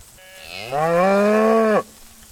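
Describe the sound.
A cow in a herd of cattle lets out one loud, drawn-out moo that swells in, holds a steady low tone, and drops in pitch as it cuts off.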